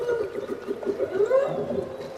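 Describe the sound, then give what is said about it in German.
Whale song off the coast of Alaska: drawn-out tonal moans and gliding calls, some sweeping upward in pitch, layered over a steady wash of background noise. “An der Küste Alaskas nahm er den Gesang der Wale auf.”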